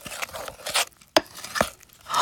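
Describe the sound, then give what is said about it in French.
Spoon stirring a mixture in a bowl after a third tablespoon of mustard is added, heard as irregular soft scrapes and wet, crunchy knocks that come in a few uneven bursts. “Une troisième cuillère à soupe de moutarde. On mélange bien.”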